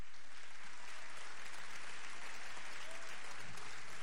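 Audience applause at a political meeting: a dense, even wash of clapping that holds steady for the whole stretch, with no talk over it.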